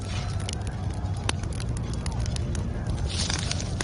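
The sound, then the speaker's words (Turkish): Fire crackles as a straw mat burns: a steady, dense hiss broken by scattered sharp pops and snaps throughout. “Şu hasır yak da küllerini basalım.”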